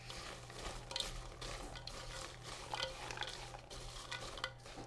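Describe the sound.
Salted pecans being mixed by hand with sprinkled fine sea salt, a faint, continuous rustling and scraping with small clicks of nuts knocking together, no voices.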